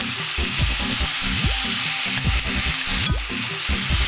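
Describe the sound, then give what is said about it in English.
About a pound of beef stew meat sizzling as it sautés in a pan with onions for cholent. A steady, loud frying hiss runs throughout, broken by scraping stirring strokes, with no talk. “And so let it saute until the meat changes its color.”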